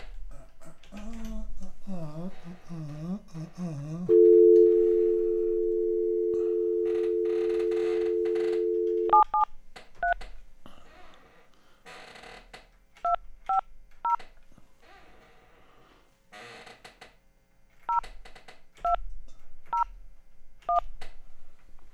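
A telephone dials a pet store. A steady dial tone holds for about five seconds, then many short keypad beeps follow in separate quick clusters with quiet gaps between.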